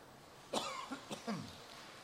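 A few raspy coughs in quick succession, short and moderately loud, with a throat-clearing quality against a low background hiss.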